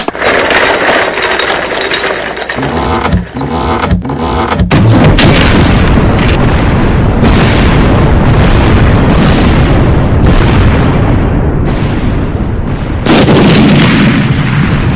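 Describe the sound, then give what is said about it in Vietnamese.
A coffin lid bursts open with a loud, booming crash that swells into a long, heavy rumble and stays loud throughout, with a fresh surge near the end. “Một tiếng choang vang lên inh tai. Quả nhiên nắp quan tài bật rất mạnh, lao ra xa khoảng 1 mét về phía Lâm Nhuận đứng.”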